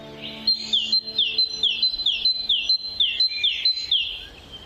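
A bird loudly calls to claim its territory while marking ground with its mate, giving a rapid, evenly spaced series of sharp, downward-sweeping chirps over a thin, steady high whistle.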